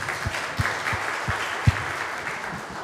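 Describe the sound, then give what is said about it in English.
Scattered applause from an audience welcoming a piano player. Individual claps land sparsely and faintly at a loose, uneven pace, with one sharper clap standing out. “Would you give Marty a hand for joining us? Come on. Come on. Welcome, Marty.”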